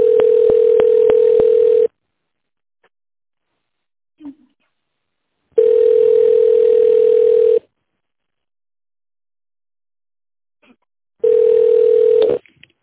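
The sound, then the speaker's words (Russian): Telephone ringback tone while a call to a company is transferred: three long, steady buzzing tones of about two seconds each, separated by silent gaps of several seconds, with a few faint clicks between them. “Секунду, я вас переведу на них.”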